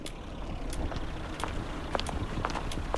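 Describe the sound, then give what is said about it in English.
Running footsteps of three athletes in colourful sports suits passing in a neat row: a few soft, irregular footfalls over steady street-like background noise. “The three athletes in colourful sports suits now run in a neat row from left to right in and out of view.”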